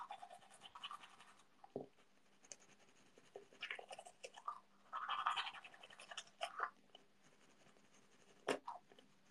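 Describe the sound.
Teeth are brushed with a toothbrush, giving soft, faint scrubbing strokes in irregular bursts with short pauses between them.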